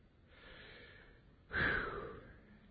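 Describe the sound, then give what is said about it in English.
A voice imitates a deep breath in: a faint, airy inhale, then a louder, sharper gasping intake that trails off slowly. There are no words. “God breathes in. Just like when you breathe in, it's like, oh, it refreshes you.”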